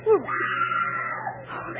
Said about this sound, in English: The scream came from near the animal cage